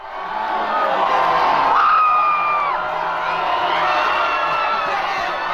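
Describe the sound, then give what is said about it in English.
Excited hockey fans gathered at a bar cheer University of Denver's NCAA men's hockey championship win over Boston College, a loud, sustained roar of shouting voices with high whoops rising above it. “That's the sound of excited hockey fans as the University of Denver's men's hockey team won their 10th NCAA championship Saturday.”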